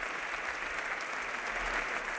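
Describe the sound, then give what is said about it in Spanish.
Audience ovation at an official ceremony in Madrid: a faint, steady wash of many hands clapping that fills the short clip. “Está recibiendo en estos momentos la ovación de todos los presentes.”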